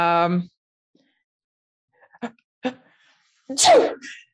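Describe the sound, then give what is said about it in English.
A person gives a single loud, sharp sneeze near the end, acted out during a tabletop role-playing game set in a narrow mountain gorge. Before it come a brief burst of voice and a couple of small clicks. “and that sneeze echoes up and up”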